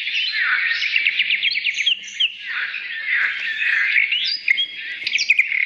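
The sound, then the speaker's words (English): Wild birds singing in the wilderness, a dense, continuous run of high, bright chirps and quick trills that overlap without pause, with no voices. “You're going to wake up to the sound of the birds and the wilderness and the quiet.”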